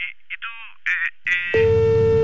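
A phone line hangs up on a scam call from someone posing as a customs officer. A few brief muffled sounds come first, then a steady electronic line tone sets in and holds to the end.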